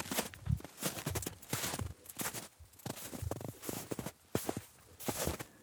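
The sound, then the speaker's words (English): Footsteps walking through spring woods on melting snow, a steady run of soft crunching steps at an even walking pace. The steps are fairly faint, and no one talks. “So I went for a walk in the woods.”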